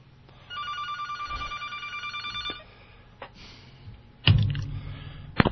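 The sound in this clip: A telephone rings with an incoming call to a radio show: one long, warbling electronic ring burst, followed by a few soft clicks and handling knocks.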